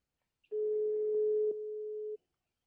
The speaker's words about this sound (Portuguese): Tô ligando para ele agora. Vamos esperar ele atender.